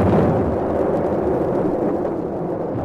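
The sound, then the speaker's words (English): Warship guns fire in an unbroken din as the ship approaches a channel: a loud, sustained low rumble of overlapping blasts with no separate shots standing out. “An infernal din of guns broke out as we approached the channel.”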